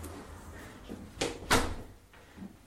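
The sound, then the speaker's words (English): A door being closed while stepping back inside from a balcony: a few short clunks and knocks, the loudest pair close together midway, with fainter taps before and after, and no voices. “I'm going to step back in, close this door,”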